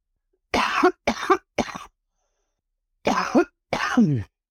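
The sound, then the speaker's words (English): A hoarse woman has a coughing fit: three quick, harsh coughs, a short pause, then two longer, raspier coughs. “I gotta grab a drink of water. I apologize. I don't know where it is. My coughing fit's gone.”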